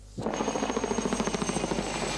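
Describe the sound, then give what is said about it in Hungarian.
A firefighting helicopter of the kind used on forest fires, fitted with a tank of over 1,000 litres, thuds steadily as its rotor beats in many rapid, even pulses over a continuous engine roar, shown off by disaster management crews in a park forest. “A pirisi parkerdőben mutatta be a katasztrófavédelem azt a helikoptert, amelyet az erdőtüzek oltásánál használnak.”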